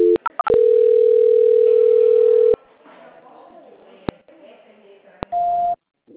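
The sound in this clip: Telephone tones during a call transfer: a few quick beeps, then a loud, steady, unbroken tone lasting about two seconds. A quieter stretch with faint noise and a couple of clicks follows, then a shorter steady tone that stops abruptly.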